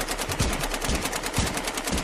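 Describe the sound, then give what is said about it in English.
Gunfire sound effects in a staged shootout scene, a loud, rapid string of many evenly spaced shots that rattle on without pause. “This is number 10, the shootout. Use our secret weapons. Guns.”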